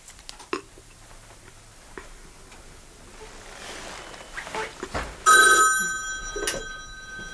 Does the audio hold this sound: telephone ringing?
yes